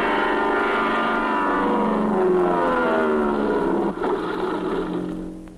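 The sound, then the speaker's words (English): A propeller airplane coming in to land on a runway gives a loud, steady droning engine roar with layered harmonic tones. It dips briefly near the fourth second, then fades toward the end. “Smiling Jack now coming in on runway number one.”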